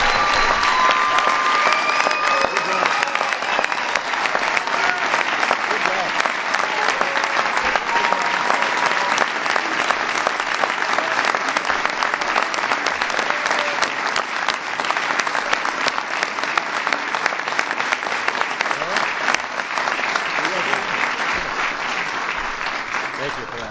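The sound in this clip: Sustained applause from an audience congratulating the 2016 World Championship Chicago Cubs: thick, steady clapping that stays loud for over twenty seconds and eases off slightly at the very end.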